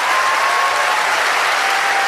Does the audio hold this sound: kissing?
no